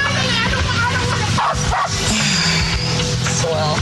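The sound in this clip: A dog barks and yips repeatedly during an argument in a park, its sharp bursts mixing with people talking loudly over a busy, continuous background.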